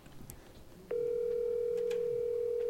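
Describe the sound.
A steady telephone tone sounds while a call is being placed. After a short, quieter stretch it switches on and holds one even pitch, loud and unbroken, to the end.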